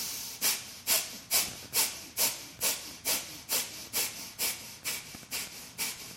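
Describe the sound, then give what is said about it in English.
Bellows breathing during yoga practice, with many sharp, forceful exhales pushed through the nostrils in a steady, quick rhythm. Each breath is a short, airy hiss, and the bursts grow slightly softer toward the end. “practice your bellows breath. Stoke the inner fire. Exhale sharply, inhale more automatic. Exhale through the nostrils, belly button pulls in like this.”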